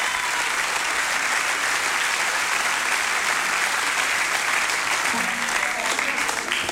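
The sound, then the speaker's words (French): Sustained audience applause for an actor's character role in a performance, a loud, dense and even wash of many hands clapping that holds steady for the whole stretch without breaks or voices. “Je vous remercie d'applaudir ce rôle de composition.”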